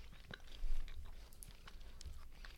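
Chewing of gummy bear candies: soft, moist mouth noises with a few sharper sticky clicks, a brief louder chomp near the start, and no talk.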